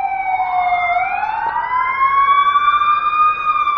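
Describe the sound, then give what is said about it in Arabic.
Warning sirens wail during a memorial for the bombing of Halabja, with traffic halted across the region at 11 o'clock. A loud, steady siren tone rises once early on, then holds a sustained, even pitch for the whole clip. “وتوقفت الحركة في الساعة 11 لمدة 5 دقائق في جميع مناطق الإقليم على وقع صفارات الإنذار”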